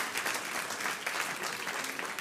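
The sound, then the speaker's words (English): An audience claps during a church sermon, with dense, steady applause that holds at an even loudness throughout with no clear pauses. “Some of you should clap.”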